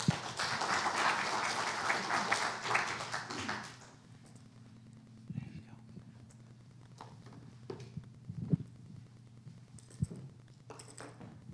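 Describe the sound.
Audience applause welcomes a speaker coming up to share about a mission trip. Dense clapping lasts about four seconds, then stops abruptly, leaving near quiet with a few faint taps and knocks.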